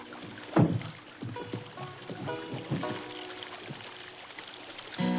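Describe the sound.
Water sloshes and splashes as people wade across a river into waist-deep water with a kayak at their sides. A few louder splashes stand out over softer trickling.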